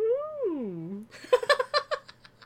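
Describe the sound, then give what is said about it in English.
A human voice imitates a manatee with one drawn-out, wavering tonal call that rises slightly and then sinks low, lasting about a second. A string of choppy laughter bursts follows. “That's the noise manatees make.”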